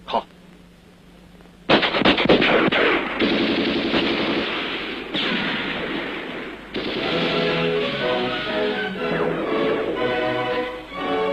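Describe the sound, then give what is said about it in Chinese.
Enemy gunfire during an urban uprising: rapid machine-gun bursts crackle loudly and densely after a brief quiet opening, with short dips between volleys. “敌人的枪声现在却成了祝贺起义成功的鞭炮。”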